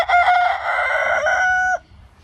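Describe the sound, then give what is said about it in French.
A hoarse rooster crows once, a strained, raspy call held for nearly two seconds at a fairly steady pitch, loud and alone, then cutting off sharply into near silence. “Il est fatigué votre coq là. Oui, il était enroué, non.”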